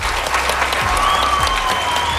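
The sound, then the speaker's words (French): An audience claps in steady applause, a dense, continuous patter of hands that goes on without a pause. “On les applaudit.”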